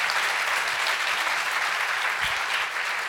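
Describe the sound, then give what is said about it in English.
A guest of honor on stage draws audience applause, many hands clapping together in a thick, continuous roar that holds at full strength for about three seconds. “A big round of applause for him.”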